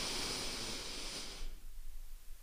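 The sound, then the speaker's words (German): A deep breath drawn in during a group breathing exercise, a steady airy hiss lasting about a second and a half before it cuts off into quiet. “Alle mal mit einmal, dreimal tief einatmen. Komm, wir machen das alle jetzt mal zusammen. Einmal ein. Und wieder aus. Und jetzt nochmal das gleiche einmal ein.”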